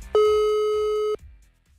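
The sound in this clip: A single steady telephone tone lasts about one second as a call is dialed and rings out, a clear mid-pitched electronic note followed by quiet.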